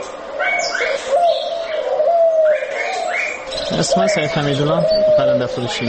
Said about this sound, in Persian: د کابل د کافروشی په کوڅه کې د نورو مرغانو ترڅنګ په آرتو آرتو څلور کونجه قفسونو کې د قمریګانو ناری هم تر غوږ کیږي